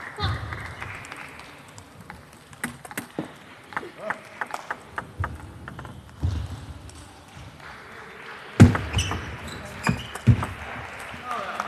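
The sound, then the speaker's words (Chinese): Table tennis ball served and rallied in a women's singles match at the start of the first game: many quick, sharp clicks in an irregular rhythm over a low background murmur, with a louder burst near the end. “第一局比赛，孙颖莎发球，0-0。”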